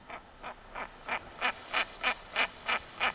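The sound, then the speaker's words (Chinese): A female bird calls in a steady series of about ten evenly spaced, nasal quacking notes, growing louder over the sequence, with no voices. “那我们再听另外一款雌鸟的叫声，我们来感觉一下”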